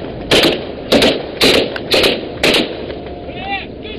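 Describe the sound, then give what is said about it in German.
Gunfire from pirates' machine guns during an attack on a tanker: five sharp, evenly spaced bangs about half a second apart, loud above a steady low rumble. “Die Piraten legen mit ihrem Schnellboot an, entern den Tanker und feuern mit Maschinengewehren und einer Panzerfaust.”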